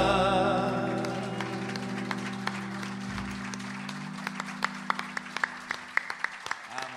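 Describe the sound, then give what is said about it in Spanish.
Applause after a song at a live recital, starting as sparse claps under a fading, ringing chord and growing into sharper, more frequent claps toward the end. “Mauro Guidetti, fuerte el aplauso”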